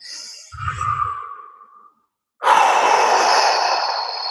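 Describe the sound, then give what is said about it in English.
A deep breath is drawn in through the nose with a soft, airy inhale, followed after a brief pause by a long, breathy exhale out through the mouth. “we're just going to take a deep breath in through the nose and out through the mouth.”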